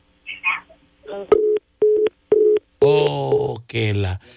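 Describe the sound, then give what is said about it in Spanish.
Phone line tones as a call cuts off: three short, evenly spaced beeps, with a voice speaking before and after them. “Vamos a marcarle otra vez. No sé por qué se le corta.”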